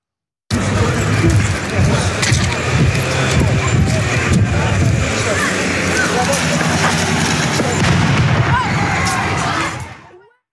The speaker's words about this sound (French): Voilà, on entend le bruit de cette grenade. C'est une grenade lacrymogène, assourdissante.